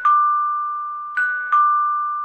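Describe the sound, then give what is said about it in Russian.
A doorbell rings three times at a front door. Each ring starts sharply and holds a steady, fairly high electronic tone that slowly fades. The second and third rings come close together, and no voices are heard. “и понял, что это звонят в дверь.”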